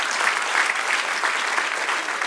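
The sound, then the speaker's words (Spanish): A church audience breaks into applause, a steady, even roar of many hands clapping that holds at the same loud level from start to finish. “Denle un aplauso al que reina.”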